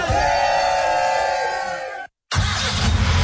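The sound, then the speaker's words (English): A car engine roars loud and steady as the car is put in drive and pulls away, cuts out for a moment, then returns as a loud rushing surge of acceleration, with no talking. “Put it in drive. We're releasing the brake. And now, bopping a wheelie.”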